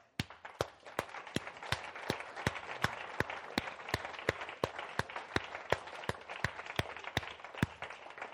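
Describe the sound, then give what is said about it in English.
Congregation applauding in a church, many sharp, evenly spaced claps standing out above a softer, scattered clatter of hands, fairly faint and steady throughout. “we just want to applaud you guys because”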